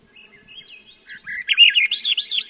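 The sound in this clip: Birds sing on an Alaskan island: a thin, faint whistled phrase gives way to a louder, rapid warbling trill with quick up-and-down notes. No voices are heard.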